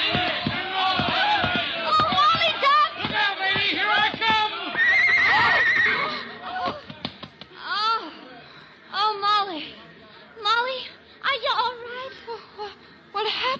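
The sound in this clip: A horse neighs with a rider aboard who is losing a stirrup. Loud, wavering whinnies fill the first half, then several voices talk in short bursts.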